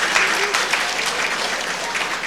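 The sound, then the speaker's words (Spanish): A parish audience bursts into applause, many hands clapping in a dense, lively patter that stays strong and even from start to finish. “Demos fuertes aplausos para todos, hermanos y hermanas.”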